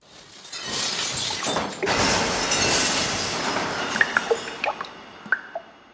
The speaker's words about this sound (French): vous avez renversé votre verre d'eau. Il y a du verre cassé partout.